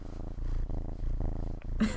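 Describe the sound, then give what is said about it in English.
Purring from a three-month-old black kitten held up close to the microphone: a low, rhythmic rumble that swells and eases in long, even cycles. A brief burst of noise comes near the end. “got the most adorable little black kitten, which I think she's going to hold him up to the microphone so we can hear him purring”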